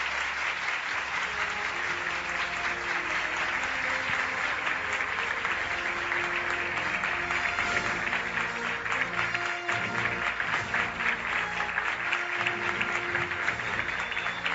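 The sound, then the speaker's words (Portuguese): Warm, sustained applause from an audience at a religious gathering in Brazil, a dense, steady wash of many hands clapping that holds at an even, fairly loud level throughout, with no talking over it. “Isso merece uma calorosa salva de palmas.”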